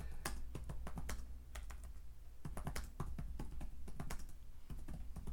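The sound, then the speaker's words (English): Rapid typing on a computer keyboard: many quick, irregular key clicks running without pause over a steady low hum, with no talk. “So hold on 1 second here. I'm going to try to type this in. I'm trying to type and talk at the same time.”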